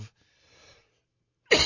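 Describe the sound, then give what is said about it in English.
A single abrupt, loud cough from a person with a lingering cough. It bursts out at the very end after near silence and a faint breath. “I have that cough.”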